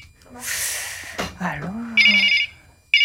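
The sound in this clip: A telephone rings with an incoming call, sounding two bursts of a bright electronic trill near the end, the second cut short, after a voice speaks briefly.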